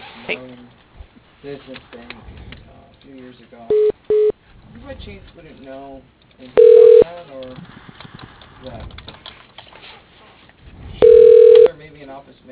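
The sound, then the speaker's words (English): Electronic phone-line tones sound while a call transfers to voicemail. Two short matching beeps come close together, then two longer steady tones follow at wide gaps, all over narrow, telephone-quality talk. “Yeah, I'll go ahead and take that voicemail then.”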